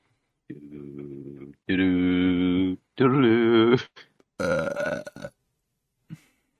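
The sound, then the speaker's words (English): A string of loud, drawn-out burps, four long croaking belches of uneven pitch separated by short gaps, followed by one brief, fainter burp at the end. “Perfect for podcasts. Burps.”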